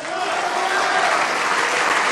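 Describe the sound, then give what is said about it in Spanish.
Church audience applauding, a steady, dense wash of many hands clapping together at even loudness throughout, with no single claps standing out. “¡Dale ese aplauso!”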